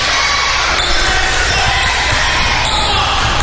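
A basketball bounces on the court as a player prepares for a free throw in a women's game. A few dribbles sound beneath steady crowd murmur.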